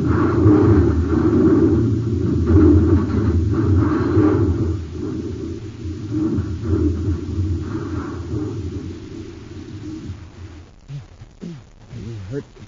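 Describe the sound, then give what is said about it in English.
A spaceship crash effect from an old science-fiction radio drama, a heavy low rumbling roar that holds loud for about ten seconds, then thins out into quieter, broken noises at the end. “Your Highness, we're going to crash. Let go of me, you fool!”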